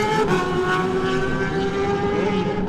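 A racing motorcycle launches off the start line, its engine a loud, sustained, high-revving drone with a steady buzzing tone throughout, with no talk.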